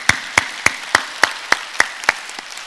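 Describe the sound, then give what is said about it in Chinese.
A church audience claps in unison to praise God, a steady run of sharp, evenly spaced claps that keep a firm rhythm before the last one comes softer. “让我们把掌声归给主。”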